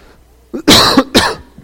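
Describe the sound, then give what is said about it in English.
A man with bad sinuses coughs a couple of times, giving sharp, loud, raspy bursts close together after a quiet moment. “Sorry. No, I want to quit coughing. That's what I want to do. So I'm going to give me a cough drop.”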